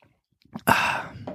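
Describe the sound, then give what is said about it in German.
A person takes a quick sip of a drink: a few small faint mouth sounds, then a short breathy exhale. “jetzt muss ich gerade mal einen Schluck trinken, Moment.”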